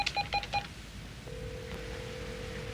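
Touch-tone dialing on a telephone as a woman places a call: a few quick keypad beeps, then a steady, unbroken line tone that holds to the end.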